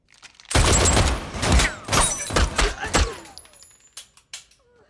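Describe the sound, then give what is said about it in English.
Gunshots fired at a person wearing a bulletproof suit: a rapid burst of many loud, sharp cracks in an uneven rhythm, thinning to a few fainter bangs before dying away. “Shoot him in the face. Shoot me in the face.”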